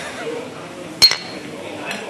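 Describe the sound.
Glasses clink in a toast at a harness-racing track: one sharp bright clink near mid-clip and a quicker second tap, with a fainter tap later, over a low background murmur.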